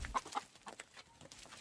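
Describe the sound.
A family's hens cluck on a rural smallholding in Kyrgyzstan, giving a few short, soft clucks, faint and without any voices.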